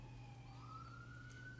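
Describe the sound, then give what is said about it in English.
Faint police sirens on a street in Los Angeles, a thin wailing tone that slowly climbs in pitch above a low, steady hum. “The LA sirens.”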